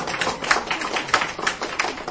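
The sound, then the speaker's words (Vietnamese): An audience clapping in a small Buddhist temple hall, a modest spread of hand claps with a few sharper peaks, fairly soft and steady throughout. “Dạ, thì xin quý vị tự cho mình một tràng pháo tay đi.”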